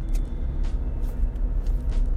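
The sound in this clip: A car drives along a road at about 50 miles an hour. A steady low rumble of engine and tires continues without a break, with faint soft thumps over it and no talking.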